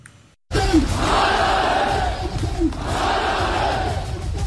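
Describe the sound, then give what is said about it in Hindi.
A large crowd chants slogans in unison at a street protest in Rawalakot, Pakistan-administered Kashmir. The loud massed voices burst in after a short silence and swell in repeated rhythmic waves. “सुनिए इन नारों को। ये नारे किसी आम प्रदर्शन के नहीं हैं”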